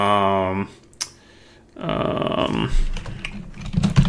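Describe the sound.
Typing on a computer keyboard: a short burst of voice comes first, then after a pause a rapid run of many crisp key clicks rattles on unevenly to the end.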